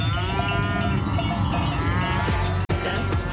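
Cowbells on grazing cattle clank and jingle continuously across Allgäu pastures, with a busy metallic ringing layered over a low background. The sound drops out for a brief gap near the end.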